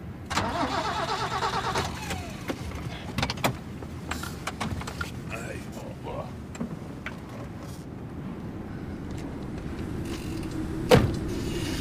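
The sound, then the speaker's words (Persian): A car engine cranks again and again without catching, a steady grinding starter whir with one louder jolt near the end. “نمیدونم چشه استارت میزنه ولی روشن نمیشه.”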